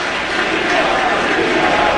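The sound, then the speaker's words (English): A stadium crowd at a Washington–Seattle football game gives a loud, continuous ovation as an injured player is carted off toward the tunnel. It is a dense, steady roar of cheering with no breaks. “He is being carted off the corner tunnel on the near side, the commander sideline, getting a ovation from the crowd.”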